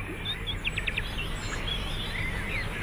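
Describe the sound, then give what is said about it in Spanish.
Birds sing on a summer day at an idyllic country mansion: a quick run of high, bright chirps early on, then scattered softer calls over a faint, steady background hiss. “Este agradable viento de verano. Los cantos de los pájaros.”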